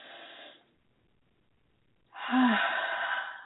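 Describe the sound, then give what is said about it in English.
Deep breathing during a guided breathing pause in a spiritual talk. A short breathy sound is followed by a stretch of silence, then a longer, louder airy breath with a brief voiced catch near its start. “So, again, let's just take a deep breath.”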